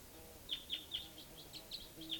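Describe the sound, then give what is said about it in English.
A bird calls in the late evening while decoy birds call nearby: faint, high chirps repeat several times at a fairly even pace over a quiet, steady background. “there's a type 2 bird coming in. There's also a type 4 bird down here. And the decoys are calling.”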